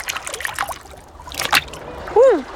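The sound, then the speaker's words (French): An animal's paw stepping into sea water makes a soft splash with light trickling and sloshing, while a voice is heard briefly. “Tout doux s'approche de la mer. Il met une patte dans l'eau.”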